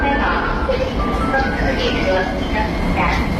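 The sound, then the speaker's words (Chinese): A subway train pulls into the platform with a steady, dense rumble and rushing noise. Faint whining tones rise and fade over it throughout. “你看地铁来了，咱们一起排队上车喽。”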